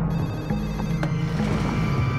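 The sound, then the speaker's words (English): A telephone rings with an incoming call, a steady electronic ringing tone that holds unbroken for about two seconds with no voices. “Until 10:30, when she receives a horrifying phone call that will change her life forever.”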